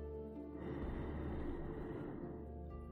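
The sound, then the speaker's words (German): A long inhalation during a guided breathing exercise: one steady, breathy intake of air that swells in and holds for about two seconds, then eases off. No other voice is heard. “halten und ausatmen. Atme ein,”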